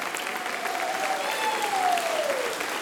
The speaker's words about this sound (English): can we put our hands together for Pastors Tony and Michelle Peake. Come on, let's give it up for them.